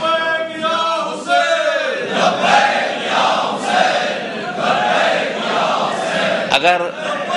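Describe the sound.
Crowd chanting a religious slogan at a Majlis Wahdat-e-Muslimeen rally in Sindh: a single raised voice opens, then a loud massed response of many voices surges in repeated waves.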